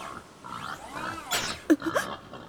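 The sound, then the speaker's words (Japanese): A wild boar gives a few short grunts and squeals, faint at first and then sharper near the end. “あれは我が天敵のイノシシさん。いつも何もしていないのに妙に攻撃的なんですよね。”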